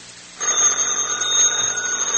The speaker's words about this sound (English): Answer the phone